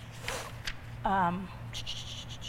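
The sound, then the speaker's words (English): A pen scratches on paper as notes are written by hand, in short, quiet strokes, with a brief voiced sound in between. “A lot of that's in here. But I'm trying to write it down.”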